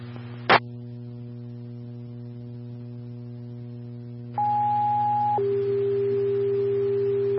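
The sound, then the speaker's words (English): A two-tone radio dispatch alert for a fire call: a brief click, then a steady higher tone held for about a second, stepping down to a lower tone held for about two seconds, all over a constant low hum. “Please stand by for tone.”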